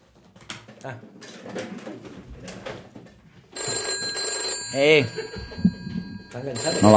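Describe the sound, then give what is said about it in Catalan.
A telephone rings, a steady high electronic ringing that begins midway after a stretch of talk and continues with voices over it. “I truca al seu amic Fabrice.”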